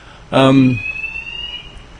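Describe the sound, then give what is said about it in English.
A building fire alarm goes off as a faint, steady high-pitched tone that holds for over a second. A short burst of voice comes just before it. “I'm pausing because the fire alarms are going off.”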